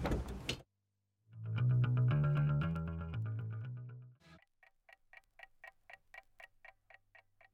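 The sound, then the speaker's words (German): A clock ticks from a vinyl record on a turntable, with a sharp crackle, then a short sustained musical chord and a burst, followed by a steady run of many evenly spaced, crisp ticks. “Tick, tick, tick, tick, tick, tick.”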